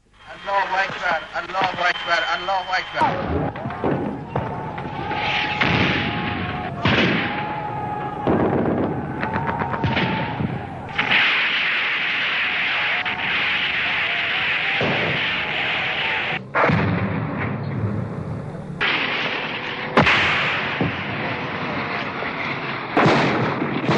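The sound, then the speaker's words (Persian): Artillery and gunfire during a large wartime offensive west of the Karkheh River near Dezful and Shush, shelling to open a path for tanks and troops: dense, continuous booms and sharp cracks with voices mixed in. “شلیک گلوله و توپ دارن این ها رو خونسا میکنن تا راه رو برای تانک های خودی و نیروهای خودی باز کنن.”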